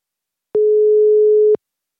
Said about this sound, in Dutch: En dan is het nu tijd om te gaan bellen met Jan Pronk